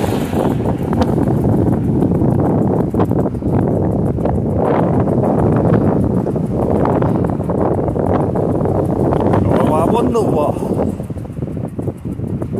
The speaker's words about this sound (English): That's one thing I like about walking in wind is the sound it makes as it rushes past your ears. That woo sound.